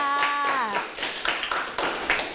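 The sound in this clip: Classmates in a Thai school class clap for a friend after a woman's voice ends, giving a short, loose run of scattered hand claps.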